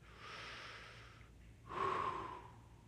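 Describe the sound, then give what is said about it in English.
People drawing a breath together: a soft, airy rush of inhaled air, faint and steady, swelling into a louder, breathier gasp near the end before easing off. “Okay, somebody take a breath.”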